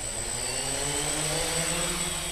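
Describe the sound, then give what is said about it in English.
Steady buzzing drone of an unmanned aerial vehicle in flight, owned privately in Yuma, Arizona; a loud, continuous whirring hum with a fixed high whine, holding an even level throughout with no voices. “may sound like the buzzing of bees, but in actuality, it is an unmanned aerial vehicle, also known appropriately as a drone.”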